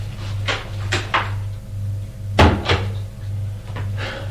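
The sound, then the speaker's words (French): A briefcase is put into a wardrobe: a series of wooden knocks and clunks from the cupboard door and the case being set inside, the loudest near the middle, over a steady low hum. “et va mettre le porte-document dans l'armoire.”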